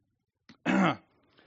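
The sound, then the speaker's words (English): One short, husky cough, close to a throat clear, from someone fighting an illness. A faint catch of breath comes just before it, then quiet follows. “Sorry, I am fighting something this morning, so I apologize for the coughing.”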